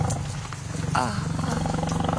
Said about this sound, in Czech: A tady šavlozubý tygr, zoubek.